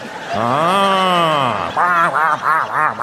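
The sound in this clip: A voice imitates a duck quacking: one long, nasal, drawn-out quack followed by several short, rhythmic quacks, loud and alone.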